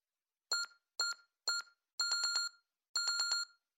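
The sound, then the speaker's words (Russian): An alarm clock rings in bright electronic bursts: three short rings, then two longer bursts of rapid pulsing beeps, each separated by silence. “Звучит будильник.”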